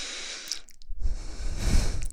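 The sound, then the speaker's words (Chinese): Breath blowing close to the ear, a soft airy hiss followed after a short pause by a longer, fuller and louder exhalation. “可能呼吸吹到你的耳朵了”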